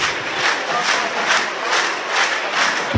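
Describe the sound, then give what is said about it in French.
Stadium crowd at La Rabine chanting in unison in the 18th minute of a match against Dax, for a player with a severe knee injury; many voices in a loud, steady mass with regular rhythmic swells. “Où l'équipe, où le public, hein, simplement. Hein. Scande le nom de Cyril Blanchard hein, qui a été blessé à la 18e.”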